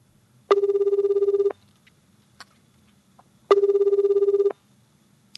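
Ringback tone of an outgoing telephone call: two buzzing one-second rings about three seconds apart, with near silence and a few faint clicks between them.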